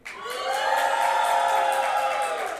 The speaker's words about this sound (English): Make some noise if you're Team Brown Sugar.